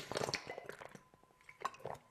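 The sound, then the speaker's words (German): Drinking a sip of water, with a few faint wet mouth sounds and a swallow, brief and soft. “So, jetzt muss ich mal kurz einen Schluck Wasser trinken.”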